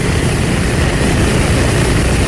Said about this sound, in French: Les quatre moteurs de l'avion tournent.